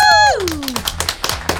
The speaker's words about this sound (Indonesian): Tepuk tangan dulu teman Pro 2.